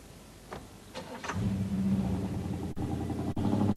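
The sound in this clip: A car engine starts after a few soft knocks, then settles into a steady, loud rumble that keeps running to the end. The car's suitcase sits on the back seat, and there is no talk.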